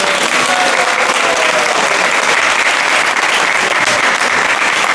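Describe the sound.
An audience gives a round of applause at a Krishna devotional talk; loud, dense, even clapping holds steady throughout without pause.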